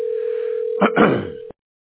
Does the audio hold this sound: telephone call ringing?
yes